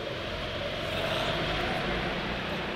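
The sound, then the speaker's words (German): A go-kart engine drones steadily while driving on a track, a continuous, fairly faint mechanical hum with no clear breaks. “Und er will Go-Kart fahren.”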